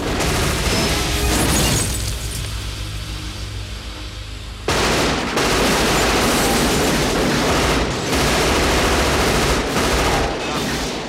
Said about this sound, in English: immediately pepper the truck with gunfire.